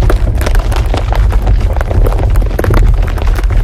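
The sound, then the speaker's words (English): A boulder rolls toward the player in a video game: a loud, continuous rumble packed with rapid, heavy thumping that holds steady throughout. “A boulder is approaching you.”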